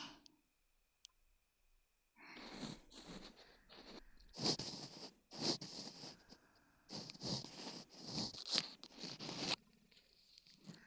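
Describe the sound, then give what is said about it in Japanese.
Ear cleaning sounds on the left ear: scratchy crackling, rubbing and clicks in uneven bursts after a short quiet start. “頭を動かして、よし、オッケー。こっちの耳もきれいにしましょうね。”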